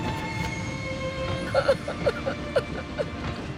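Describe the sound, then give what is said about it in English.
A steam train rolls away with a steady low rumble and hum, broken by a string of short, squealing metallic pulses in the middle and later part. “Ernest holds Ethel tight as the train rolls away, leaving a plume of smoke in its wake”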